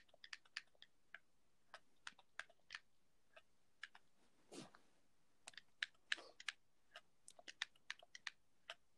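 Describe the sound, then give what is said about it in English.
Keystrokes as a password is typed for a PS4 account on a laptop keyboard: quiet, irregular taps with pauses between clusters and a brief soft rustle midway. “And I go into my PS4 password. I have it right here in a note. And I type it in.”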